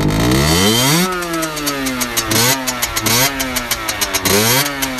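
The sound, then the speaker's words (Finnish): A Suzuki PV motorcycle with a deliberately loud exhaust revs its engine, rising in pitch in repeated sharp blips. Between them it settles into a rough, rapidly popping idle, loud and with no talk. “No, haluatko sä polkaista se käynti ja antaa meidän kuulla? Voin mä polkaista. Korvat saattaa räjähtää.”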